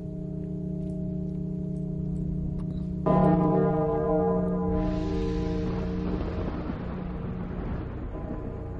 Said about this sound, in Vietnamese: ở trong cổ thành bỗng nhiên vang lên một âm thanh vô cùng kỳ dị. Âm thanh như là tiếng chuông vang lên vọng ra xa, bay vút lên trên tầng không, bay đến cả vạn dặm quanh đây.